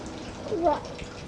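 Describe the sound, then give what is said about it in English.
Tap water runs steadily as Papa washes vegetables for dinner, a soft continuous hiss with a brief voiced sound in the middle. “what is Papa washing? Vegetables.”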